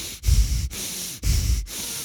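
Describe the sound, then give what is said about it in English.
Rapid, hard shamanic breathwork: four forceful breaths alternate in and out in a quick, even rhythm, each a loud, rough rush of air. Each breath is separated from the next by a brief gap. “a 2 hour journey of extensive hard breath in and straight away hard breath out. So it was kind of like”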